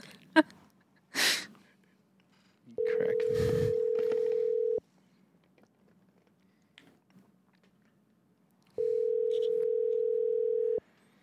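Telephone tone while placing a call: two long, steady, even tones separated by a pause, with a few faint breaths and small mouth noises before them.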